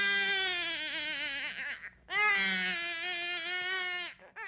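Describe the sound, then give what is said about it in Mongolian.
A child cries shrilly near a ger. There are two long, loud, wavering wails with a brief break between them, and a short sob at the end. “Нилээд удаснай дараа гэрийн баруун өмнө жүг нэлэх хүүхдийн чахран уйлах чимээ сонстожээ.”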